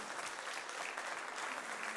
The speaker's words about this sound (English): Come on, give God a hand clap if you believe that.